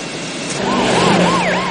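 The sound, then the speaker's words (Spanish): Police car sirens wail as several police cars cross a street in front of a church with a large tower; a wavering tone rises and falls over a low traffic rumble, swelling slightly toward the end. “Varios coches de policía cruzan una calle ante una iglesia con un gran torreón.”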